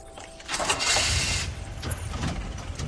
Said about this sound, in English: Laura and Nathan drive away.